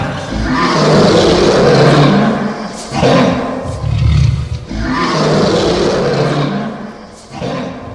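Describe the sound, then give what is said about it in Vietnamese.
A dragon roar sound effect from a fantasy battle scene: deep, rumbling, loud roars come in a few long bursts, each swelling and then trailing off. They are heard alone, with no talk. “Con rồng này gầm lên một tiếng vô cùng khủng bố, thể hiện uy lực vô cùng của Thất Tinh Long Tuyển Kiếm.”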